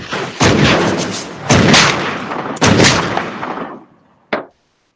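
Gunshot sound effect: four loud blasts. The first three are evenly spaced, each with a long decaying rumble; the last is a short, sharp crack after a moment of near silence.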